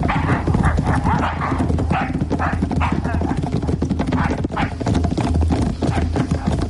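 Several horses, some of them led horses, are set off running: a loud, dense, continuous clatter of hoofbeats that fills the whole clip without a break.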